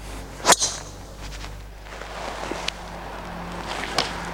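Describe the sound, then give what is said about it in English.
A Nike golf driver strikes a ball with a sharp, solid crack. One loud impact sits near the start, followed by a low steady background with a few faint thuds. “One thing I really liked about the old Nike drivers was the sound, and really this is a very good sound as well, but it's quite a sharp sound, it's quite a solid sound”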